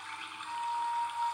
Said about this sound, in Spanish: Y justo ahora llegamos al inicio de estas aguas calmadas y cristalinas.